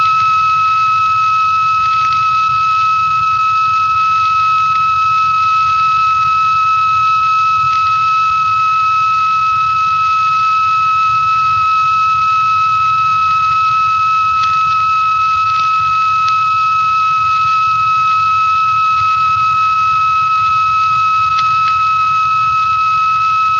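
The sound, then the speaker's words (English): A steady, unbroken 1.3 kilohertz test tone from an amateur radio station of the Wireless Institute of Australia sounds loudly and alone throughout, a pure mid-high whistle with faint overtones and a low background hiss. “The tone now is 1,300, 1.3 kilohertz.”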